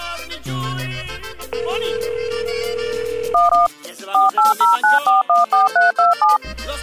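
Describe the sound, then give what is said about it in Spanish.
Telephone keypad tones beep as someone dials a call. After a steady held tone, a single beep comes first, then a rapid, even run of many short, bright two-note tones, loud and alone. “Tantito, tengo que hacer una llamada.”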